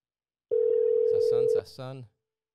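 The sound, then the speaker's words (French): Telephone dial tone while calling someone: a loud, steady single-pitched tone lasting about a second, cut off as a voice starts talking. “Fait que ça s'en vient. Donc, on l'appelle à cet instant.”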